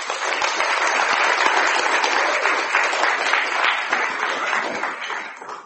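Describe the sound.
Warm audience applause greets the speakers of a workshop on relationships and recovery, with full, dense clapping that holds steady for several seconds before tapering slightly at the end.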